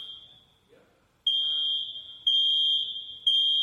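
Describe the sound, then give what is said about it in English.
A smoke alarm sounds with a shrill, high-pitched electronic tone: one tone fades out, then after a brief gap three loud beeps follow at a steady one-second interval, each lasting almost a full second. “What is that? It's an alarm. And when you hear that, what does that mean? It means something's wrong.”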